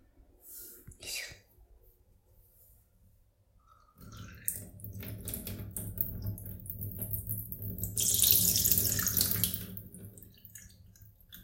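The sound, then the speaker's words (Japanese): A person urinating produces a steady hissing, splashing stream that swells loud near the middle and then eases. Before it comes a stretch of faint handling rustle and quiet, breathy sounds. “おしっこしたいと思います。”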